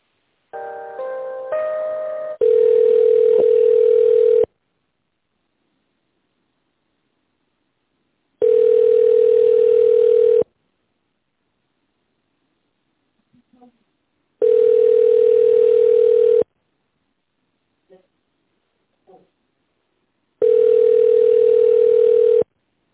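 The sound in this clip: A telephone line tone plays while a call is transferred: a brief burst of short tones, then four long, steady, evenly spaced beeps separated by silent gaps.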